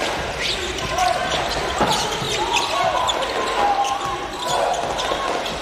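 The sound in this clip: A basketball is dribbled repeatedly during a game involving the Australian team, with steady, even bounces under a commentator's continuous talk.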